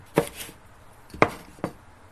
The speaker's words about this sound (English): I'm going to take them out over here, and we're going to start to slice these. Slice them lengthwise or slice them half, doesn't matter. Just slice them once.